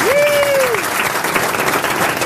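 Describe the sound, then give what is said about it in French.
Studio audience applause and cheering during a radio game show as a caller is greeted: a full, steady burst of clapping, with a brief sliding whistle-like tone rising and then dipping near the start. “le public qui vous acclame déjà.”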